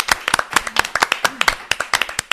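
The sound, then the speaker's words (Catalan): Audience applause breaks out in a short round of brisk, uneven hand claps, the sharp bright strikes overlapping loosely throughout and holding a steady, moderate loudness until the end. “Vinga, un aplaudiment.”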